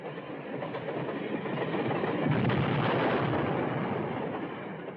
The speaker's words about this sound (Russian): печка, стоящая во дворе, взрывается.